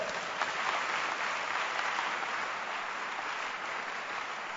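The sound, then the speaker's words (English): A church audience claps during a service in a full, continuous roar of many hands that stays dense and even, easing slightly toward the end. “Keep clapping.”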